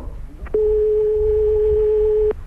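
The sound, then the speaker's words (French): A telephone ringing on the line as heard by the caller: one steady, plain ringback tone lasting about two seconds, starting and stopping abruptly over a low background hiss. “Écoutez, vous entendez sonner, là.”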